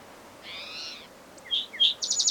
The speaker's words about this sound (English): Female crow.